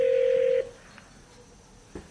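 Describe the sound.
Telephone tone while placing a voice call: one steady, mid-pitched tone holds for just over half a second and then cuts off. Quiet follows, broken by a faint click and a short burst near the end, with no talk.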